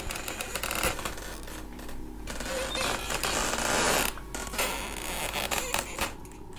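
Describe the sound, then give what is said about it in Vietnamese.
Footsteps stepping gently on slatted wooden floorboards produce irregular creaks and scraping squeaks over a steady hiss, rising and falling in loudness throughout. “Tiếng bước chân của Cường dẫm lên trên cái liếp sàn nhà, nó vang lên những tiếng cọt kẹt”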